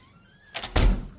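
A door swings and is closed as someone enters a house in a crime drama scene. A brief rushing scrape leads into a heavy, low thud that fades quickly.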